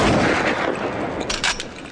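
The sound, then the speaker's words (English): A crustacean's claw snaps shut as a sonic weapon, firing a blast of bubbles. A few sharp cracks stand out from a dense, loud wash of crackling noise. “It deals a knockout blow from a distance by using its claw as a sonic weapon. First, its claw is cocked like a pistol, then fired.”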